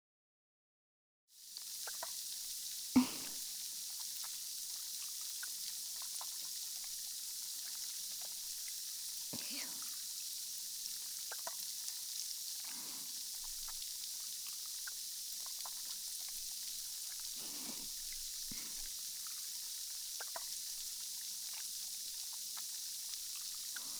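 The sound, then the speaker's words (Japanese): Carbonated foam being worked up between the palms: a steady, bright fizzing hiss with scattered soft crackles and squishes that starts after a brief silence and continues throughout. “次は炭酸の泡を耳に入れてくよ。まず手のひらで泡立てて”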